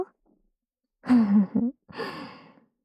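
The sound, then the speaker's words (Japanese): Gentle ASMR breaths blown into the listener's ear: two soft, airy puffs with a faint voiced edge, each swelling and fading away, separated by a brief silence. “はーい。君の大好きな、お耳ふうふうのお時間ですよ。”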